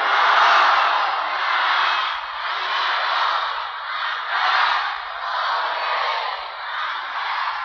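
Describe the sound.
A crowd chanting a salawat blessing in unison at a religious gathering, a loud, dense wash of many voices rising and falling in steady waves.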